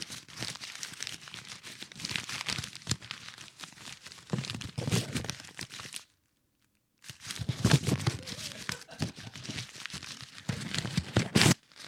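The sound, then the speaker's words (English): Paper rustles and crinkles continuously as a corner is folded over and tape is torn, giving a busy, dry crackle that stops for about a second and then resumes. “what you just want to fold the corner over, like this thing. Get some tape.”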